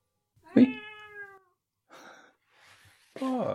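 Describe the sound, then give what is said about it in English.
A female cat meowing indoors, a few meows in all: a long, clear first cry whose pitch sinks slightly, two fainter ones, then another strong meow at the end. “My cat has just come in here.”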